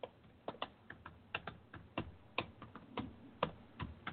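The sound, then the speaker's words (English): Fast typing on a computer keyboard: many quick, crisp key clicks in an uneven rhythm, fairly faint, with no voices. “You like how fast I can type? Super fast. You heard it.”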